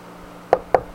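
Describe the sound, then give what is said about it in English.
A door is knocked on three times, sharp evenly spaced raps after a brief quiet stretch, each knock loud and clear against a faint background. “Knock on the door.”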